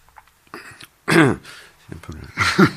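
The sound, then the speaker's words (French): Throat clearing from a scratchy, irritated throat comes in a few rough, voiced bursts, the strongest near the middle and another near the end. “j'ai la gorge qui racle un peu.”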